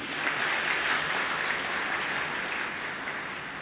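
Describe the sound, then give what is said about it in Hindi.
An audience claps during a talk, a steady, even wash of applause that lasts a few seconds and eases slightly toward the end, with no voices. “फिर तो ताली बजनी चाहिए।”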